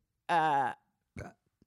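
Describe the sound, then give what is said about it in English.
A burp pushed right into a microphone: one loud, drawn-out voiced belch, followed after a short pause by a briefer, rougher burst. “You actually leaned into the mic for that burp.”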